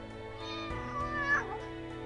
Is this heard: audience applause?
no